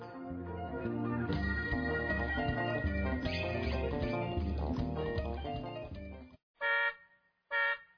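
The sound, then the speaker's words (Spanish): Two short car horn honks from an aunt waiting outside, each a brief bright blare, sounding just after a stretch of music stops abruptly. “La tía está pitando. ¿Cómo se demoran?”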